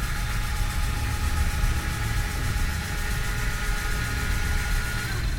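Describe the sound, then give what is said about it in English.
Spacecraft fusion drive fueling sequence running from a secondary fuel storage bay, a loud, steady engine-like drone with a rough low rumble and a hissing upper layer that holds constant throughout, with no voices. “We'll do shift T. Fusion drive from secondary fuel storage bay. Please wait.”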